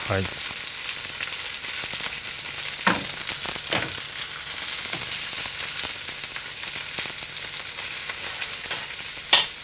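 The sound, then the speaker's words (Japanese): Mackerel roasting with new potatoes over medium heat sizzles in a steady, bright hiss, with a few sharp pops and crackles over the continuous frying. “あらまた、サバが美味しそう。結構あの中火で割とじっくりじっくり焼いていく感じですね。”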